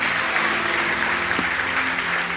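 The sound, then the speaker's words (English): Hand clapping from an audience at a morning church service, a dense, even wash of many overlapping claps that stays loud and steady from start to finish. “Now let's give the Lord a hand clap this morning for his grace and power.”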